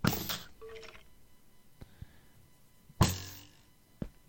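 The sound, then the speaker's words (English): Arrows fired by a skeleton in the video game Minecraft: two sharp launch bursts, one at the start and one partway through, with a few lighter clicks between and after them. No one speaks. “See, the problem with skeletons is they're terrible shots. So, he keeps firing.”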